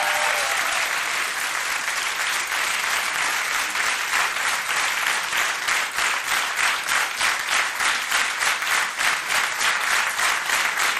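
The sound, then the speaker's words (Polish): A studio audience applauds loudly and steadily for several seconds. The clapping soon falls into a regular rhythm, like clapping in unison, and continues unbroken to the end. “brawa, bardzo proszę”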